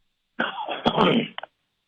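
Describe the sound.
Throat clearing from a frog in the throat makes a single harsh, raspy burst of about a second, closing with two short clicks.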